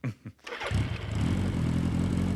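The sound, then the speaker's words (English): A motorbike engine starts: a couple of short bursts, then the engine catches and settles into a steady, loud, low rumbling idle that carries to the end. “Say, is that your motorbike? Oh, yes, sort of. Splendid, old boy. It kind of drives itself.”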